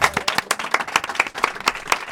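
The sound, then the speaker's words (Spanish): A class at a secondary school claps for a student, many sharp individual handclaps in a quick, uneven patter from a small group, fairly faint and steady to the end. “Muy bien, otro aplauso ahí para Javi.”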